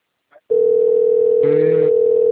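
On a call to a bank, a telephone line tone sounds: a brief soft click, then a loud, steady, single-pitched electronic tone that holds without a break. A rougher, buzzier layer joins it briefly in the middle.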